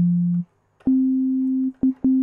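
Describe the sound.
Sine wave test tone played through speakers that cannot reproduce very low pitches: a steady low hum lasts about half a second, then after a pause a slightly higher pure tone sounds and continues with two brief dropouts.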